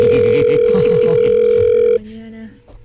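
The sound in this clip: A telephone ring tone sounds for a call that goes unanswered. One steady electronic note holds for about two seconds, then drops to a quieter, lower note that fades out.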